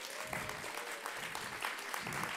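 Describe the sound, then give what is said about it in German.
Applause from an audience at a church service, clapping for the mothers. A dense, continuous patter of many hands, faint but steady throughout, with no speech over it. “Ja, das ist dein Applaus. Wollen wir den Mamas mal einen Applaus geben?”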